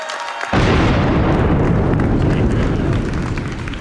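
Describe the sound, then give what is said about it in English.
A cannon blast hits suddenly after a moment of quiet, a loud, sharp boom that turns straight into a broad, sustained roar and then thins out slowly over the next few seconds. “they really turned up the cannon this year”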